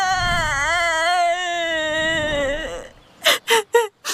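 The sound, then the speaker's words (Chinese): A little lamb character crying: a long, high, wavering wail held for about three seconds, then four short, sharp sobbing bursts in quick succession. “好像是谁在哭，走去看看。”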